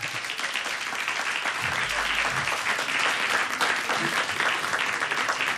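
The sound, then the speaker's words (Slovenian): Audience applause fills the whole stretch as a steady, dense patter of clapping hands, moderately soft and even in level, with no speech standing out above it. “Priden, bravo, aplauz dan, bravo, bravo.”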